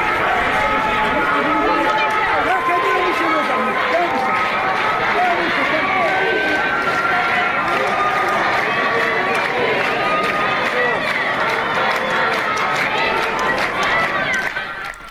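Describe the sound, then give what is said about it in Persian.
A crowd of protesters holding a street sit-in in Mahabad makes a dense, unbroken roar of many voices that stays loud and even from start to finish. “در مهاباد ویدیویی منتشر شده که حضور بسیار قابل توجه معترضان در قالب یک جور تحسن خیابانی در این شهر دیده میشه که صداش الان میتونیم بشنویم.”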